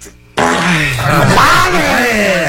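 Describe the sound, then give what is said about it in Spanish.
A loud, forceful exhale breaks out after a deep breath has been held. It is voiced and groan-like, with a wavering pitch, and sustains for about two seconds after a brief quiet lead-in. “Tengo que respirar. A ver, suéltalo.”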